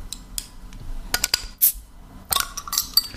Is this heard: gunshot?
no